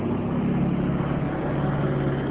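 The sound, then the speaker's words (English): A neighbour's truck passing gives a loud, steady low engine rumble with broad rushing noise that holds level throughout. “Neighbor truck.”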